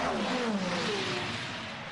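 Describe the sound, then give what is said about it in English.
A number 17 Genesis racing car's engine roars past on a race track, a loud, steady mechanical howl whose pitch falls as the car goes by, with no voices. “Paul Loop Shannon's behind the wheel of that, the number 17 Genesis Magma Racing car”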